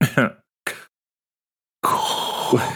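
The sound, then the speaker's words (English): A distinctive breathing sound from a film: two brief vocal bursts come first, then a long, hissing, breathy rush of about a second that swells near the end. “And then you hear this very distinctive breath.”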